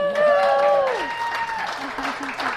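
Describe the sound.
Audience applause at a book launch, a short burst of steady clapping heard under a voice and tonal sounds.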